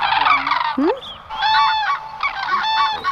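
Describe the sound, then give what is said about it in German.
Common crane calls: a few loud, harmonic trumpeting honks in bursts, with a brief swooping note between them and no voices. “Das ist der Kranich, ja, aber es bleibt trotzdem ein Wahlgeheimnis.”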